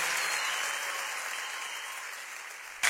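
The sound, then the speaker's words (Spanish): Audience applauding a performer at a show: a full, continuous roar of clapping that eases slightly as it goes on. “Un aplauso para Lili, por favor.”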